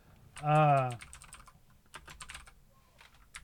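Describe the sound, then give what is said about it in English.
Typing on a computer keyboard: many quick, light key clicks in an irregular run, following a short voiced sound at the start. “Oh, no. That's not what I wanted to type in.”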